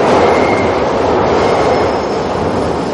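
A train rushing through a station platform, heard as a loud, dense, continuous rumble and clatter of wheels and carriages that eases slightly toward the end, with no voices.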